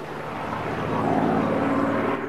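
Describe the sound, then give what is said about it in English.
A low-flying single-engine aircraft drones overhead with a steady propeller rumble that grows slightly louder midway and then holds, with no voices. “They all look up at the low-flying aircraft.”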